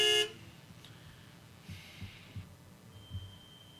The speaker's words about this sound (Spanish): Mientras tanto, que siga pitando esta camionetita que tenemos mucho, mucho más en este programa.